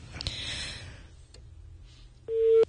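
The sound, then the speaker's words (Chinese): A telephone busy tone after a caller hangs up. Soft clicks and rustling come first, then a single steady mid-pitched beep sounds loudly near the end. “这位孙先生电话挂断了哈”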